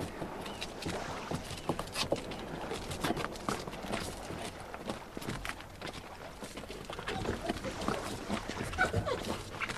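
Timmy, a dog, scratches at a heavy wooden door, with many rapid, rough scrapes and knocks running on steadily and fairly loud.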